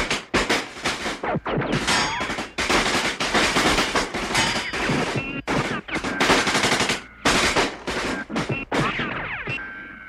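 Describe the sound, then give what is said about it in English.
Automatic gunfire as armed fire teams engage intruders near a water treatment plant on the Narmada river: loud, rapid bursts of machine-gun fire with short gaps between them, sustained throughout. “Outside, the gunfire roared as the Aryan conclave fire teams engaged the intruders.”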